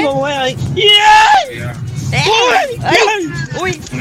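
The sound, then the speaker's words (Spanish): Excited shouting and yelling from raised voices, with high strained cries and loud spoken bursts running through the whole stretch. “con unos gritos medio acampaditos”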